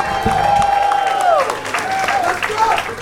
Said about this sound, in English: Make some noise one more time for Celia, everybody.